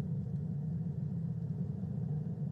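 A car engine rumbles while driving, a faint, low, steady hum that continues without distinct events and with no voices.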